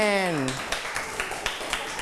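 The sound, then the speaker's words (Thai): In a children's English class, a brief voice gives way to a few crisp hand claps in a steady, even rhythm, each sharp and distinct against a quiet background. “ปรบมือ”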